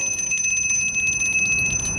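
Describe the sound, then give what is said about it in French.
A small hand bell rings on and on, a bright, fast, steady jingle used to summon a maid in a grand house, with no talk. “Maudite clochette.”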